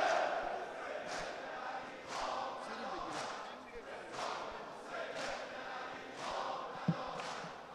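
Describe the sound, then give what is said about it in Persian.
At Imam Sajjad mosque, mourners perform sineh zani: many rhythmic, regular chest-beating thuds over a constant wash of group chanting voices, all fairly faint. “باری کلا به بچه های مسجد امام سجاد، آفرین به این سینه زنا.”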